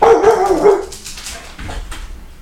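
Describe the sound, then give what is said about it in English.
A dog barking at a passing car, starting with a loud burst of barking and then trailing off into quieter yips and whimper-like sounds. “We had somebody drive by, and the old Grandpup, he's just letting everybody know that he's here.”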